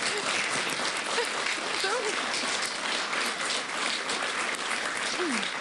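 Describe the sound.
Dense applause runs steadily and evenly for the whole stretch without a break. Faint voices come through underneath.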